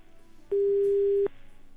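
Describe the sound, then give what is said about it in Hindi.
A single steady telephone tone sounds for under a second after a radio call-in line disconnects, clean and mid-pitched against faint pulsing background noise. “Hello, लगता है call cut हो चुका है। आप फिर से कोशिश कीजिए प्लीज़।”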